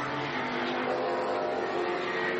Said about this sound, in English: Torsten Kratz for Hofer Racing, cresting the rise at the top of the hill at the amphitheatre. Now plunging down